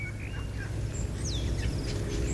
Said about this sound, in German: Die Goldamsel oder der Vogel Pilo.